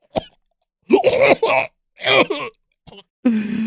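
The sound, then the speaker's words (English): Someone choking and coughing on pasta stuck in the throat: several strained, rough bursts of coughing, throat-clearing and groaning, separated by short silences. “I'm choking. I don't know what's just stuck in my throat. I can't finish this pasta.”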